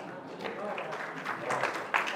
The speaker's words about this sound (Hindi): मेरे लिए नहीं उनके लिए बजाओ तालियां, ये बड़ा चक्कर है। माल आपका बताया मैंने और तालियां मेरे लिए